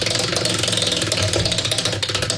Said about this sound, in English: All right, we're going to spin the wheel for you. Here we go.